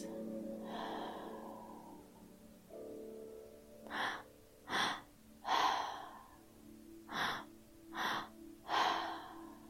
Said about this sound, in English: With every inhale, imagine that you are receiving, and every exhale is a release.